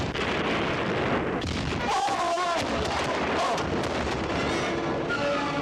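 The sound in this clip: Cannon fire from a ship in battle, a dense, continuous barrage of rumbling blasts and booms with no clear gaps, and shouting voices mixed into the din.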